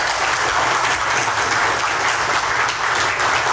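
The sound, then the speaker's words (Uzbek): Sustained applause fills a courtroom as a ruling to release a defendant is greeted, a steady, dense patter of many hands clapping without a break. “Videodagi tasvirlarda Shuhrat Sadinovning sud zalidan ozod etilishi to'g'risidagi qaror qarsaklar bilan kutib olingani”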